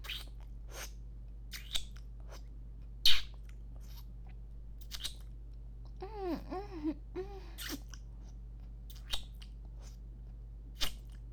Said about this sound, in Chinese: 大黄瓜，人家好饿，想吃了。